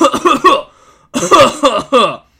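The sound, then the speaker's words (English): A man's voice imitates a person coughing onto a debit card through a thin cloth, producing two runs of rough, harsh hacking bursts separated by a short pause. “next to his mouth with a thin cloth covering it and just coughs all over my debit card.”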